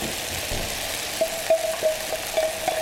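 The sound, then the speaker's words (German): Chives being stirred into a vegan scrambled egg mixture tinted with turmeric in a pan: a few soft scraping strokes rise over a steady faint hiss, with no talk. “Zum Schluss kommt jetzt Schnittlauch hinzu. Tun wir einmal rein.”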